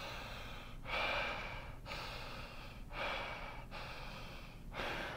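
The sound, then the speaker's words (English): Deep breaths through the mouth, a slow, rhythmic run of airy inhales and exhales, each rushing swell following the last with no talk. The breathing is faint and steady. “And people typically breathe through their mouth too. So it's more like, and then a deeper breath would be more like.”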